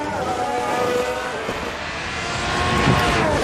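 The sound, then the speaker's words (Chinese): A racing car locking its tyres at turn one and running off the track: a dense, continuous roar of engine and rushing noise with a thin whining tone, swelling slightly toward the end. “轮胎锁死啊，直接冲出了赛道啊！一号弯直接轮胎锁死，维斯塔潘”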